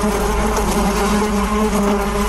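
Honey bees buzz in a dense, continuous drone that stays loud and steady throughout, with no voices over it.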